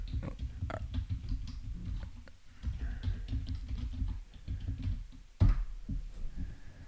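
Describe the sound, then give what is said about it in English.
Typing on a computer keyboard: many quick, uneven key clicks in bursts with brief pauses, and one louder thump partway through. “And type in what Star Wars guns to ban.”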